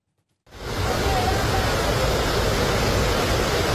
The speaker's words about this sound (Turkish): Gürül gürül akan şelalenin ortasında kaldı, dayanacak gücü kalmamıştı.